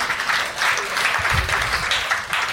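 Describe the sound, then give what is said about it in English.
Audience applause at a live comedy show, with steady, dense clapping that runs unbroken and fairly loud through the whole clip. “at least half of the people here applaud that”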